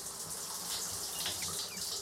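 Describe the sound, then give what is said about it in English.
Shower water running in a bathroom, an even, continuous hiss and rush that stays steady throughout without a break. “pulls back the shower curtain, then turns off the water.”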